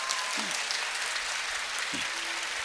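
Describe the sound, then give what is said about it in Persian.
A crowd clapping at a religious celebration of Imam Reza's birth, a dense, even wash of hand claps at a steady level, with faint voices rising briefly over it. “همه این دستا رو بالا بیاریم، یک کف مرتب بزنیم.”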